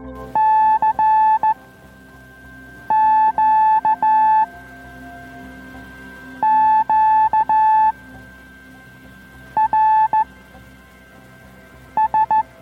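Morse code CW signals on the 80 metre amateur band sound as high, steady keyed beeps in about five clusters of rapid dots and dashes, separated by pauses, over a constant low hum of radio noise.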